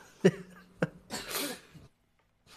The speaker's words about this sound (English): I'm choking on I'm choking on my coffee.